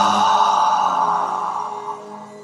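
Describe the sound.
A deep breath drawn in: one long, continuous airy rush of breath heard alone. It is loud at first and gradually fades toward the end.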